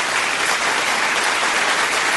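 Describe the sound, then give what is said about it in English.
Studio audience applause welcoming a stage actress onto a show: a loud, steady wash of dense clapping that holds evenly throughout with no voices over it. “I love that canned applause. Can I just take some of that with me? It's not canned.”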